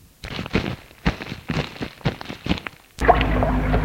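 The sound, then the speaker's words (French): Water splashes as a white handkerchief is dipped and wetted. Irregular, choppy splashes come first, then a steadier, louder rush of water continues to the end. “Il sort de sa poche un mouchoir blanc et va le mouiller dans l'eau.”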